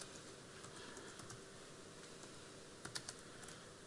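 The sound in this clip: Computer keyboard typing, very faint, with a few soft key taps clustered near the end over a steady hiss.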